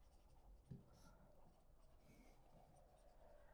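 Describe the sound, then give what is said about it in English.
Handwriting: faint, soft scratching strokes with one brief tap near the start, very quiet and without speech. “I'm going to write exactly the same thing.”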